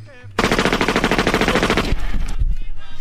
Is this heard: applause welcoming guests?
no

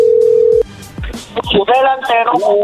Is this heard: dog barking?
no

